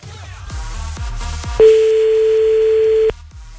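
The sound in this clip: A telephone ringback tone sounds while someone calls a person back: a single steady, clear electronic tone that holds for about a second and a half, over a faint rhythmic beat of background music.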